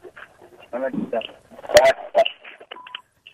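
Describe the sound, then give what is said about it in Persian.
Telephone dialing tones as a call is placed, a few short, clipped beeps near the end, following a stretch of talking. “یک تماس داریم، تماس هم میگیریم”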